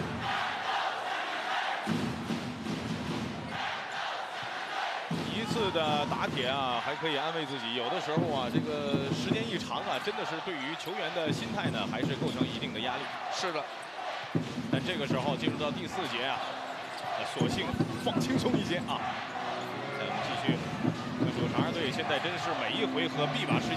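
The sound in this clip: Basketball dribbled on the court in a professional game during the fourth quarter: quick, repeated bounces under steady commentary and a noisy crowd.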